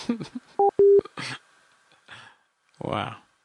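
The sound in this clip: Telephone keypad dialing tones: two short, steady electronic beeps in quick succession as someone dials a phone during a conference call, with talk and breathy sounds before and after.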